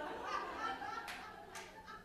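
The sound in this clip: Faint, scattered clapping from a cabaret audience at Cabaret Voltaire, a few thin claps rising over a low murmur of voices.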